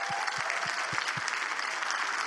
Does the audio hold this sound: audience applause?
yes